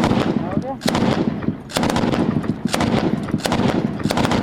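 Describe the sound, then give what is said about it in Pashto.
Gunfire from light and heavy weapons during fighting near Lashkar Gah: many sharp, loud cracks and bursts in an irregular rhythm, some in rapid clusters, over a continuous rumbling background. “نږدې د سپکو او درنو وسلو ډزې روانې دي”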